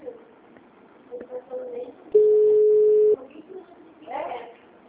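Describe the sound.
A single steady telephone ringing tone lasts about one second on an unanswered call, standing out clearly against faint, murmuring background voices before and after it.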